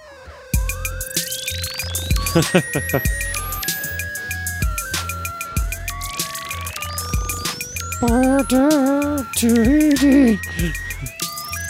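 Telephone-style dialing tones inside an electronic song: dense clusters of stepped beeps and sweeping synth chirps, followed by warbling, wavering tones, all loud and busy throughout.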